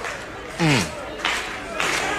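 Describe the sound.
Baseball crowd noise with two strikes on the batter, fans urging a strikeout. A steady roar surges in a few swells, and a loud shout with a falling pitch rings out near the start.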